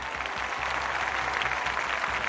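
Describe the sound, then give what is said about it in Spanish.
Applause at a mock Real Madrid announcement about signings and a new coach, forming a dense, steady wash of clapping that holds at an even level throughout. “Aplaudid.”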